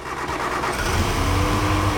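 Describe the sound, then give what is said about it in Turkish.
Car engine misfiring and running on only two cylinders, with the rear third and fourth cylinders not firing: a rough, uneven mid-pitched drone that stays loud and steady throughout. “motor işbirliği yapmıyor. İki silindirle çalışıyor.”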